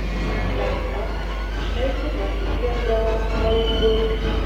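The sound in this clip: Train station noise: a steady low rumble with faint tonal rail sounds and indistinct voices murmuring in the background. It stays even and moderate in level throughout.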